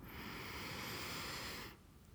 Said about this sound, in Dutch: Adem via de neus. Zo diep mogelijk in.